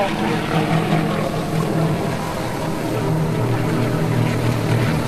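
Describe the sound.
A cargo-hoisting drone lifts off in mountainous terrain, its propellers making a steady, dense whirring drone with a continuous low hum underneath that holds level throughout.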